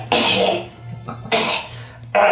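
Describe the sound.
A person's voice imitates a creature coughing and sputtering after being hit by an ice attack in a tabletop game, producing three harsh, loud bursts of breathy coughing with short gaps between them.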